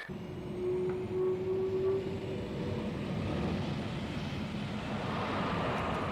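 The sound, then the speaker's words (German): Steady, droning engine roar from two F-4 Phantom fighter jets taxiing to the start, a broad rumbling hiss with a faint sustained whine that holds at an even loudness throughout. “Die beiden Jagdmaschinen, mächtige Phantom F4, rollen jetzt an den Start.”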